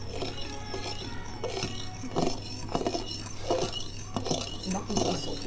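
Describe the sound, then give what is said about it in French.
Utensil clinking against a bowl as egg yolks are mixed, with a series of sharp, irregular taps and scrapes of fairly even loudness over a steady low hum. “Vous mélangez les jaunes d'œufs.”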